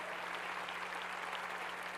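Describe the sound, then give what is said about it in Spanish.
Applause from a church audience: soft, steady clapping that stays dense and uniform for the whole two seconds. “Dale un aplauso a la palabra del Señor.”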